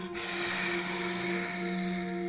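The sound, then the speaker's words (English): A forceful exhale with the tongue sticking out, done as a cleansing yoga breathing exercise: a sustained, loud breathy rush lasting about two seconds over a steady low tonal hum. “Breathing in and then sticking out the tongue. And last one, breathing in and out.”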